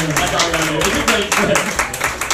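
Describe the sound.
Audience applause for a performer: dense, steady clapping that holds at a loud level throughout, with voices mixed into the noise.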